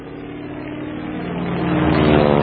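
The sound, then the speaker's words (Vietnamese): An American patrol boat's engine drones steadily on a river, giving a continuous low, rumbling hum that grows gradually louder toward the end, with no voices. “Phía cuối sông, tiếng tàu Mỹ tuần tra chăng dẳng, lúc gần, lúc xa.”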